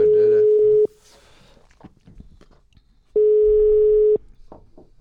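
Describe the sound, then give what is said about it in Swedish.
Ringback tone of an outgoing telephone call: a steady mid-pitched beep held for about a second, a long quiet pause with faint small noises, then an identical second beep. “Vi ska ringa upp Emil Persson.”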